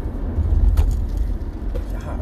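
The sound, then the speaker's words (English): Steady road noise inside a moving car, a low continuous rumble and drone with no distinct events standing out. “We're also driving again. I know, not safe.”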